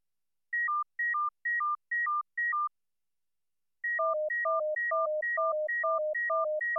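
Low stream of alternating pure tones C and D, steady and evenly paced, interleaved with a higher alternating tone pair that first plays alone in five short repeats before the lower pair joins in a continuous four-tone cycle.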